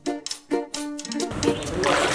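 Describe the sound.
Water splashing as a person bathes in a canal in front of a rural house, with brief talk at the start followed by a steady, broad wash of splashing.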